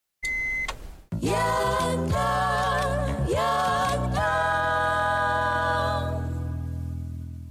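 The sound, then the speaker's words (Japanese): A radio show jingle opens with a short electronic beep, then a bright synthesized phrase of a few chords that holds and slowly fades. “先ほどのジングルはラジオネームピオの伝言でございました”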